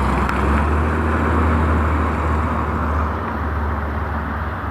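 A Jaguar car driving past, heard as a steady low engine rumble blended with broad road noise that eases slightly toward the end.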